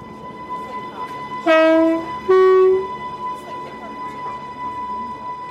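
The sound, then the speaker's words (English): A battery-powered train runs with only a steady high electric whine and low rumble, broken by two loud horn blasts in quick succession, the second one longer. “That's the sound of a battery-powered train. It's as close to silent as I think I've ever heard.”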